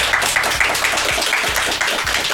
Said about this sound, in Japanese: 楽しかったって人拍手お願いします。